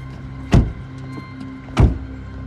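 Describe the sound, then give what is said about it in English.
Two car doors thud shut as people get out of a car, two separate solid slams a little over a second apart over a low steady hum. “They get out of the car.”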